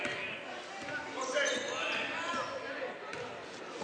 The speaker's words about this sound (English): What are you doing? Having a dribbling exercise?